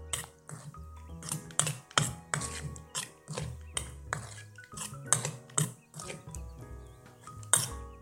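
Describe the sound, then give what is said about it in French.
A spoon stirs salt and pepper into a citrus vierge sauce in a bowl, producing many irregular clinks and scrapes of utensil against the dish, some sharper taps standing out. “et une demi-cuillère à café de poivre. Je mélange.”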